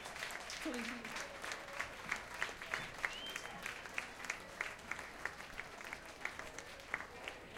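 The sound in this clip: Audience applause after a band's set at the Jyrock 2011 rock festival, a fairly faint wash of clapping marked by regular, rhythmic louder claps that recur steadily throughout.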